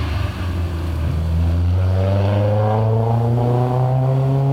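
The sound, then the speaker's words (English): An open-top Mercedes SL250 drives by, its loud engine drone climbing steadily in pitch as it accelerates, with no voices over it. “Okay, here comes an open car. Looks like a Naya Mercedes.”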